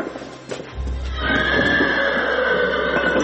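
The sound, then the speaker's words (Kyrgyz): Horses being gathered together: one lets out a loud, sustained whinny that begins about a second in and holds to the end over a low rumble. “Аттарды ушул жерге чогултуп атайын, бир жерге. Көбүнчө жарымы өзүбүздүн айылдын аттары.”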